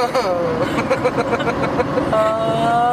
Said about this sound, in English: Sketchy drive from Detroit home.